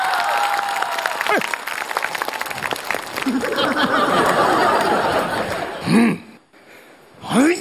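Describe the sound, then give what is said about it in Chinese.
Audience applause at a comedy night: a stretch of sustained clapping with scattered laughter, and people talking before and after it. “掌声”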